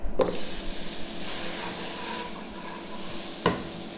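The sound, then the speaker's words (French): Butter melts in a frying pan with a steady, soft, airy sizzle. A sharp knock opens the sound and another comes near the end. “Vous faites fondre le beurre dans la poêle.”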